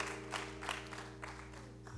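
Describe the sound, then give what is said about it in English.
Faint applause from a church audience at a Women's Day service, a steady wash of clapping over a low hum. “Somebody should clap right there.”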